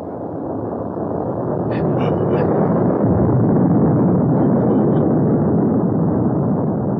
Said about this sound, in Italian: È una delle più grosse navi di Tolmeichia. È in atterraggio di emergenza.